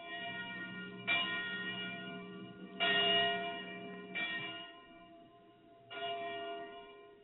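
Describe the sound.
Church bell ringing, with four distinct strikes at uneven intervals, each blooming into a sustained metallic hum that lingers and overlaps the next, fairly faint overall.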